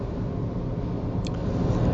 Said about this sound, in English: Hold on, I gotta pass this truck. There's a guy, there's just litter going all out of the back of his pickup truck all over the freeway.